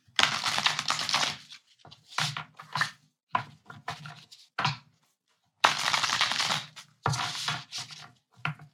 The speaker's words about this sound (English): Let's pull another card.